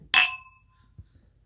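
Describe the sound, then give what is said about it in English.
Glasses clink once in a celebratory toast as a bottle is opened. The bright, ringing note decays over about half a second, followed by a couple of faint soft knocks. “But we are cracking open a bottle”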